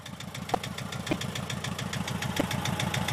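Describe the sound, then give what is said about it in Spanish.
A Volkswagen Beetle four-cylinder engine idles alone with a steady, rapid train of even firing pulses and a low, rough mechanical hum that holds the same pace throughout. “Es el sonido de un escarabajo, es el sonido de los cuatro cilindros del escarabajo”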